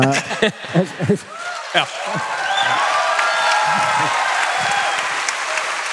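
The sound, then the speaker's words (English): Audience applause at a live show at the Ryman follows a few seconds of a man speaking, then swells into a dense, sustained clapping that stays loud to the end. “has applause for God, guys. Yeah, that, give it up for God.”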